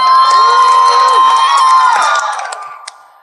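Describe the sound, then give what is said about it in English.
Children in a crowd at a live event cheer and shout together, a loud, sustained burst of high voices that holds for about two seconds before fading away. “If you're a kid, make some noise.”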